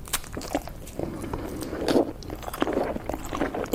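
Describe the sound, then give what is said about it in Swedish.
Chewing on a piece of cake, with soft, irregular mouth sounds and faint crunching that continue throughout at a fairly low level, swelling slightly midway. “nu sitter jag här och äter en god tårtbit”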